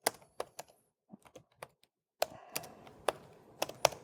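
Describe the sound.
Typing on a computer keyboard: scattered quick keystrokes in short bursts with pauses, growing louder and more clacky in the second half.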